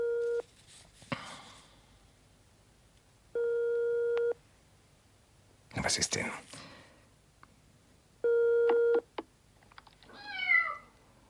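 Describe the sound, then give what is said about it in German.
A cat meows on the telephone: three bursts of a steady, buzzing telephone tone with breathy rustling between them, then a short meow with falling pitch near the end. “Katze ans Telefon. Die Katze, die sitzt schon die ganze Zeit neben dem Telefon und wartet auf deinen Anruf.”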